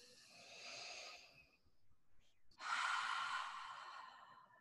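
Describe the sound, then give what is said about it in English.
A group taking a deep breath together: two long, faint, breathy whooshes separated by a short pause, the second louder than the first. “And we're all going to take a deep breath together.”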